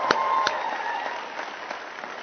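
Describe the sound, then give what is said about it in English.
Church audience applauding a baptism announcement at Lilburn Christian Church: a steady patter of many hands clapping for about two seconds, with a few sharper claps near the start and no talk over it. “I'm sure a lot of you know why you're clapping, but if you don't, Jade will be baptized today.”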